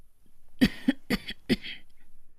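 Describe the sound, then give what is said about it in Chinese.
An old woman coughing: a few short, throaty coughs in an uneven rhythm, fairly loud against a quiet background. “老妇咳嗽一声，让自己的脸部表情看上去柔和一些。”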